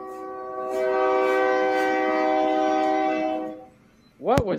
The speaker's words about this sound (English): That was a train. Choo-choo! Choo choo!